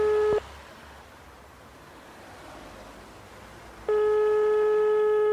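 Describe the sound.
Telephone tones sound: a short steady electronic beep at the start, a stretch of faint hiss, then a long sustained ringing tone running to the end, fairly quiet overall.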